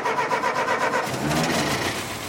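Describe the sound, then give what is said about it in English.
Engine of a 100-year-old Ford car starting up, an old-timey model with a small windshield and thin tires; a continuous, steady rumbling churn fills the whole moment without any voices. “It's one of those old-timey Fords with a small windshield and tires that look like they belong on a mountain bike. Even though it's 100 years old, it still starts.”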